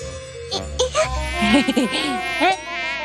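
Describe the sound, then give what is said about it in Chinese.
A mosquito's thin, high-pitched whine drones steadily for about three seconds, wavering slightly in pitch, with no voices. “蚊子，哎， 好痒啊！”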